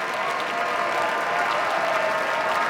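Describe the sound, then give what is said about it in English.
Concert audience applauding after a violin encore arrangement of Schumann's Dreaming from Scenes from Childhood, following Mozart's Fifth Violin Concerto; a steady, dense wash of clapping at even loudness throughout. “they couldn't help and applaud at the end of Dreaming from Scenes from Childhood by Robert Schumann, Agustín Hodalink's own arrangement of that piece as an encore”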